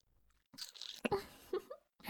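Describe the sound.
Biting into food: a few crisp crunching bursts, separated by short pauses and followed by chewing-like crackles, with no talk.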